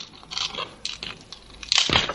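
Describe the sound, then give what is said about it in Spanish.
A slice of buttered toast crunches and cracks as it breaks in two at a kitchen breakfast. A few dry, crisp crackling bursts come in sequence, the loudest snap near the end. “El joven unta mantequilla en una tostada y esta se rompe en dos.”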